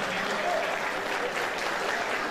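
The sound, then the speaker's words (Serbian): Crowd applause for a prime minister: a thick, continuous wash of clapping at a steady, fairly loud level with no break. “Ve volam jedan golem aplauz za premijerot”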